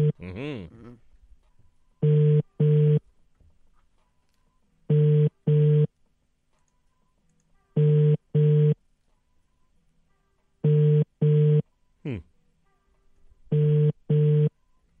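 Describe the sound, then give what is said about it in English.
A telephone call ringing out, heard as a double-burst ringback tone repeating five times at even intervals. Each steady, unchanging pair sounds clearly between quiet gaps, after a brief voice at the start. “All right. Let's call Jennifer. Find out where we land.”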